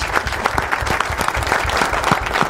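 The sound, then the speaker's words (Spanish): Applause from the audience at an informal evening gathering, a dense, steady patter of many hands clapping, loud and even from start to finish with no talk over it. “Un aplauso gigante para ellos. Bravo, bravo. Aplauso.”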